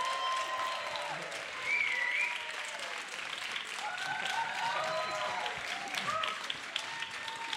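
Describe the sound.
Church audience applause welcoming a speaker before a Christmas message: sustained, lively clapping throughout, with some cheering voices mixed in over it.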